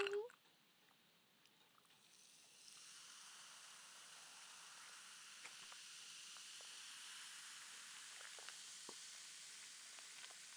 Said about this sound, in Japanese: 炭酸水を注いで、